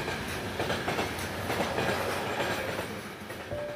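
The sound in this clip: A train running on rails at about 100 km/h past a station platform gives a steady, loud rushing rumble with faint rhythmic clatter throughout.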